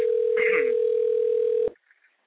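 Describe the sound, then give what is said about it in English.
Telephone dial tone heard before placing a call: one steady, unbroken hum at a constant pitch. It holds for about a second and a half, then cuts off abruptly, leaving near silence. “We have to make a phone call, folks. Got to pay the bills.”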